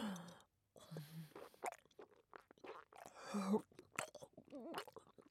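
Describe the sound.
Wet, crunchy chewing of something in the mouth that dissolves as it is bitten, with irregular soft bites, squishes and mouth noises, fairly faint.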